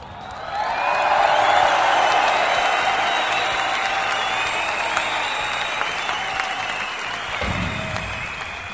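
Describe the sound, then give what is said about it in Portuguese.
Applause from a group of people, swelling in the first second and then holding as a dense, steady wash of clapping that tapers slightly toward the end. “Cara, eu quero te aplaudir tanto, você não tem noção.”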